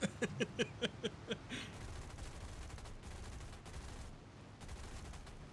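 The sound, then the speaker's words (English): Gunfire in a video game: a quick run of sharp, evenly spaced shots that fades into a dense, steady noisy rumble, all fairly faint. “I'm shooting Gustavo down.”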